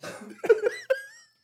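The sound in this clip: A few sharp coughs caused by congestion in the throat break out in quick bursts, then trail off into a fading breath, heard alone with no talk.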